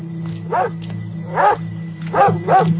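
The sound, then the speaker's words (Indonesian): A dog barks repeatedly inside a house, aiming its barking at someone nearby. Four sharp, mid-pitched barks come in an uneven rhythm, with longer gaps between the first ones and the last two close together, over a low steady hum. “Aku kaget dan melihat seekor anjing di dalam rumah yang menggonggong terus ke arahku.”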